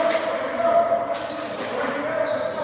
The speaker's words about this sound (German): Und Alex King kriegt den Ball wieder übergeben, titscht ihn wieder dreimal auf, Geht wieder tiefer in die Knie, wirft ihn mal wieder und diesmal ist er drin.